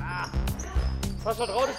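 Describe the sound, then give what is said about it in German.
Basketballs bounce during a youth basketball training session in a sports hall, a few sharp thuds under raised voices and shouting. “Dienstagnachmittag, 17 Uhr. Basketballtraining in einer Bayreuther Sporthalle.”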